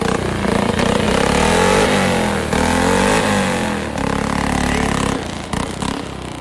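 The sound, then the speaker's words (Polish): A speedway motorcycle without brakes starts and revs on a stadium track under covered stands. The engine roars loud and unbroken, its pitch wavering as the throttle rises and eases. “Fantastycznie brzmi tutaj motocykl. To się niesie.”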